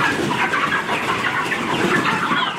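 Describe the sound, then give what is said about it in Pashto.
Broiler chickens cluck in a dense, steady din on a poultry farm of about 15,000 birds in a village of Arghandab district, Kandahar, with overlapping calls and no pauses. “د کندهار د ارغنداب ولسوالۍ د میانجوی کلی د چرګانو د فارم کې دا مهال 15000 غوښین چرګان تر روزنې لاندې دي.”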